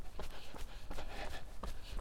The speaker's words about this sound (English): So I'm starting the run, heading away from town,